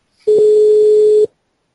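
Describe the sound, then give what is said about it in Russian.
A single steady telephone tone sounds while dialing out to the telephone exchange. It is one continuous, fairly loud beep about a second long, with no talk. “Вот сейчас мы на телефонную станцию позвоним, спросим там что-то у вас с телефоном.”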